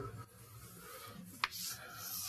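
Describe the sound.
Writing on a board during a lecture: faint, soft scraping and rubbing strokes that run continuously, broken by one sharper tap partway through, with no voices.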